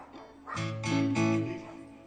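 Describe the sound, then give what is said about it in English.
A dog barks a few times in short, tonal bursts, alerted by another dog nearby. The barks are moderately loud and come in quick succession over a low background. “Max's doggy radar just went off because there's another dog there.”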